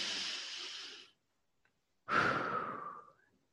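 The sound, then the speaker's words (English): One slow, deep breath: a long, airy inhale lasting about a second, a short silence, then a fuller, sighing exhale, soft and heard alone. “take a slow, deep breath. Let's do another one. Let's do it together.”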